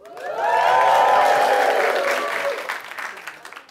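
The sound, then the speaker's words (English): A live show audience cheers and applauds, the noise swelling quickly to a loud peak, then gradually tapering off into scattered claps. “Make some noise if you've ever been in love.”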